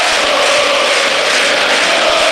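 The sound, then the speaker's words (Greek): A football crowd at Toumba stadium in a PAOK match roars steadily and loudly, a dense sustained wash of cheering with no break. “Και φυσικά το κοινό ξεσηκώνεται στην Τούμπα από αυτές τις δύο προσπάθειες των διεθνών μας.”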